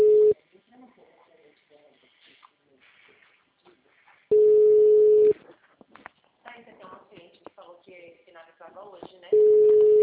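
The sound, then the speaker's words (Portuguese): A phone ringback tone sounds as a call is placed. Three long, steady, low beeps come roughly four seconds apart, with quiet voices talking in Portuguese in the gaps between them. “Agora você vai ligar então para fazer contato com ela.”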